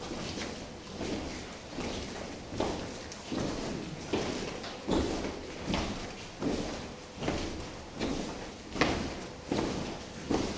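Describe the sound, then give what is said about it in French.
Footsteps of a group of people walking together and trying to keep one shared pace: many soft, shuffling steps that settle into a steady, regular pulse of light thumps, with no talking. “Et maintenant, on continue à marcher et on va essayer de marcher à la même vitesse, à la même pulsation.”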